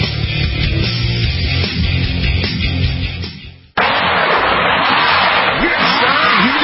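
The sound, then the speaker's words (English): A tow truck working on a car stuck in snow: a steady low engine rumble cuts off abruptly, then a loud whining, grinding noise sweeps up and down in pitch. “That is the sound of the wrecker. That is the sound of the tow truck.”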